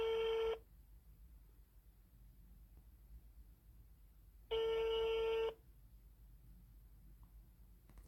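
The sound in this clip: An outgoing telephone call rings with two bright electronic ring tones, a short one at the start and a longer one about four seconds later. Near silence separates them.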